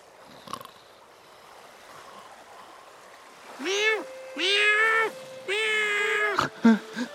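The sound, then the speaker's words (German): A cat meows in a run of drawn-out, wavering meows, loud and tonal, after a quiet stretch with a faint watery background. Brief clicks and knocks follow at the end. “Oh, Katze hat mich geweckt. Miau!”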